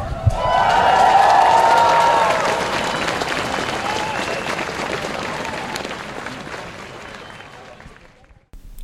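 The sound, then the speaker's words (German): Crowd cheering and applause fill a school strike protest in Erfurt against a military service law, loudest at the start, then slowly thinning into a steady, noisy roar of clapping and voices. “So klang es am 5. Dezember 2025 beim Schulstreik hier in Erfurt.”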